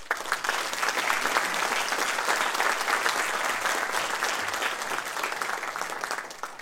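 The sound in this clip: Warm audience applause welcoming a history lecturer at a museum talk. Thick, continuous clapping stays loud and even from start to finish without breaks.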